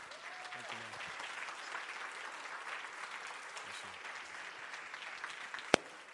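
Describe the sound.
Faint, steady applause from a church audience at the Main Christian Center, standing to welcome a pastor to the pulpit. The soft wash of clapping stays even throughout, with one sharp tap near the end.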